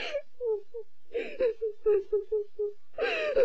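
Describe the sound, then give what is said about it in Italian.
Crying from Nausicaä, the young heroine of the 1984 anime film Nausicaä of the Valley of the Wind, in many short whimpering sobs that break off and resume, closing with a longer wail. “Nausicaa, su, non piangere.”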